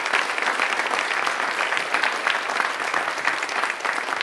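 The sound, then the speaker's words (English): Dense applause from a church audience welcoming new members: many hands clap steadily at an even, loud level throughout, with no voices standing out. “Folks, please put your hands together to welcome our new members.”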